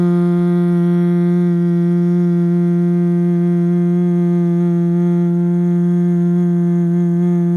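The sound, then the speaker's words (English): Bumblebee breath humming on a slow exhale: one loud, steady, low-pitched buzzing hum with rich overtones, held unbroken and level throughout, with no other sounds. “Exhale your bumblebee sound.”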